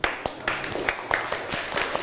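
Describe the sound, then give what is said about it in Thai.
A classroom of students clapping to encourage their classmates: a loose, irregular patter of separate sharp hand claps rather than a dense roar, fairly quiet. “เดี๋ยวเราปรบมือให้กำลังใจเพื่อนหน่อยค่ะ”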